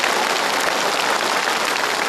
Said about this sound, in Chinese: 我们再次用掌声，恭喜王大叔找到了自己的家。